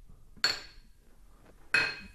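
Two bright clinks of beer glasses touched together in a toast. Each is a sharp, ringing strike that decays quickly, and the two fall more than a second apart with no talk between them.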